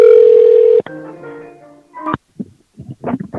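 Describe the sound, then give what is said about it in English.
A telephone number is dialed: a loud steady tone is followed by a run of shorter, varied beeps and tones with small gaps between them. “I'm going to dial this”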